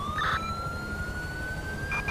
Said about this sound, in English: we're going to downgrade since he has a siren going right now in the front.